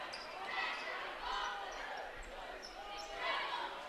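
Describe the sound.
A basketball dribbled on the court during a game, a few dull bounces under steady crowd noise and voices.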